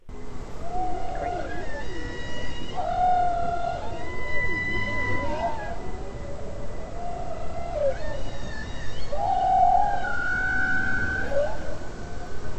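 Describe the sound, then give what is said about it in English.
Whale song recorded underwater with a hydrophone: a long sequence of varied tonal moans, whoops and upsweeping and downsweeping cries in repeating phrases over a steady hiss of background noise, with no one talking. “Let's hear what these whales sound like.”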